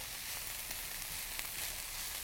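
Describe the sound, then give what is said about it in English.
Collard greens sautéing in a pan give a faint, steady sizzle, an even hiss with fine crackle and no talk. “All right, so I'm going to put them in here. And just saute them for a few minutes.”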